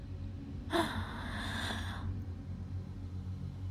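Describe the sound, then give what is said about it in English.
A single deep breath in, a breathy rush lasting just over a second that swells quickly and then tails off, followed by a steady low hum. “Breathe in.”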